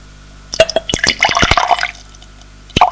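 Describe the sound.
Wine poured from a bottle into glasses: a short burst of splashy trickling and dripping with light glassy clinks over about a second and a half, then a single drip or clink.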